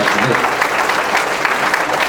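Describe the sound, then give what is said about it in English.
Audience applause for a presenter after a talk: loud, dense clapping from many hands, sustained and even throughout without a break. “Let's give Nick a warm round of applause.”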